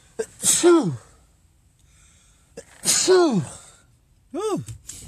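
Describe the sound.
A few sneezes in a row from one person. Each is a sharp, noisy burst that trails off in a voiced, falling tone, with short pauses between them.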